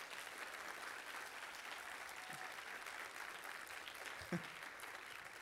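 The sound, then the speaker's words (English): An audience applauds the organizers at a large conference: steady, faint clapping that continues evenly throughout, with no talking over it. “And the organizers in general? Can we applaud?”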